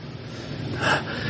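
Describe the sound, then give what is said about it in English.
A short, heavy gasp of breath from someone winded after skating, one rough burst of air in the middle of a quiet stretch. “God, why are you out of breath?”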